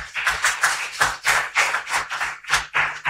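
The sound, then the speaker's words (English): Audience clapping in unison for past campers at a camp gathering, a steady, rhythmic beat of loud, evenly spaced claps. “Let's give our past campers a hand.”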